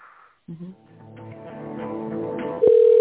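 Telephone tones on a call being transferred: a brief signal, then a stretch of layered tones that grows louder before a steady, loud, single-pitched line tone takes over at the end.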